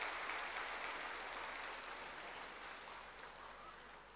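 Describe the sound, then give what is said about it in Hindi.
An audience claps to welcome a respected speaker, a sustained, even wash of applause that stays fairly faint and slowly tapers off. “ज्ञानी योगी तपस्वी जीवन में हमेशा सुखद अनुभूति में रहने वाले आदरणीय आशा दीदी जी का हम करताल ध्वनि से स्वागत करते हैं।”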